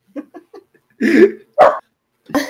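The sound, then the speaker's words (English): A dog barking: a few soft, short yips come first, then three louder, fuller barks with gaps between them. “The second I unmuted, Ahsoka started barking.”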